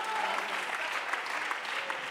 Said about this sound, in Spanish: But if you're glad for what God is doing, clap your hands and lift your voice. Pero si están agradecidos por lo que está haciendo Dios, ¿por qué no aplauden en sus manos?